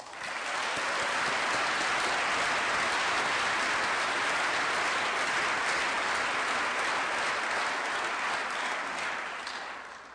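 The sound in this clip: An audience applauds to welcome a speaker to the stage at an evening meeting. The clapping is dense and steady for about ten seconds and tapers slightly at the end.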